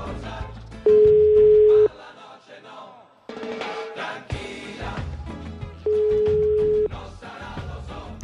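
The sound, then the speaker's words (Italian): A telephone rings in a radio studio: two long, steady electronic tones of about a second each, a few seconds apart, sounding over loud background music. “Suona il telefono della Zanzara. Il telefono della Zanzara che suona.”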